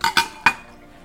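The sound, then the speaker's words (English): Three sharp, bright clinks of a spoon against dishes, each ringing briefly. The first two come close together and the third follows after a short gap, then the ringing fades into quiet. “Need a spoon.”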